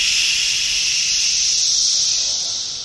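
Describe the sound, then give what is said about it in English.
Cicadas buzzing in a loud, dense, hiss-like drone that holds steady throughout and thins slightly at the very end. “What's so interesting about the cicada sounds is when you just hear it for the first time, you just hear white noise.”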